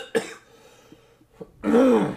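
A person clears their throat: a sharp cough-like hack, a couple of faint short catches, then a longer, louder rasping, voiced clearing.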